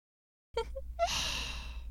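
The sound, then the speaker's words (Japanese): Heavy, ragged breathing: a couple of short voiced gasps, then one long, noisy, breathy exhale, fairly loud and with no talk over it. “静かにしても呼吸が荒いね。”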